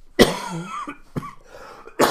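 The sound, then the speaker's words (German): A person coughs into a microphone three times. The coughs are sharp, loud bursts about a second apart, with rough throaty sounds in between. “wenn ich hier noch ein bisschen ins Mikrofon huste, tut es mir leid, ich drehe mich dann auch schnell weg”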